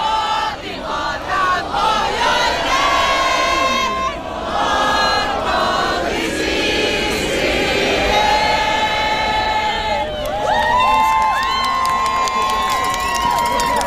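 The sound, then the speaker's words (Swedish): A festive crowd on the Salutorget market square in Turku (Åbo) cheers, shouts and sings Vårt land together. Sustained sung tones carry above the continuous crowd noise. “Massor med folk var ute på torget och det lät på olika sätt. Vi har ett litet ljudklipp här då folk firar och sjöng Vårt land.”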